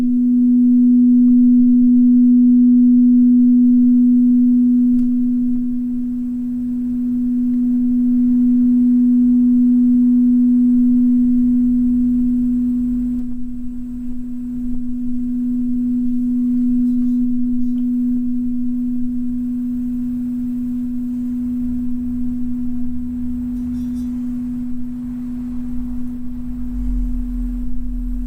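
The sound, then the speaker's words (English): A singing bowl rings with a pure, steady low hum that sustains for nearly half a minute, gently swelling and dipping in loudness as it slowly weakens toward silence. “let me play it and let it fade out. Just be still for a minute. Listen for the moment when the bowl goes to complete silence.”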